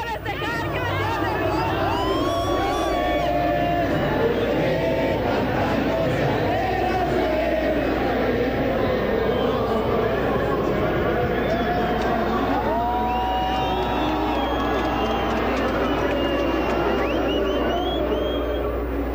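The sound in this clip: A large crowd of fans sings Cielito Lindo together, a dense, continuous wall of many voices with wavering sung pitches over constant crowd babble, loud and steady from start to finish.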